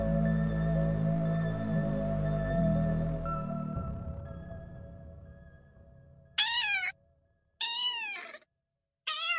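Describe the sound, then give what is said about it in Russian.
A small grey-white kitten meowing in a thin, plaintive voice. Three short, high, wavering meows come after a sustained musical tone fades out. “Тонким жалобным голосочком возмущался серый белый котенок, которого я крайне аккуратно держал в своей ладони.”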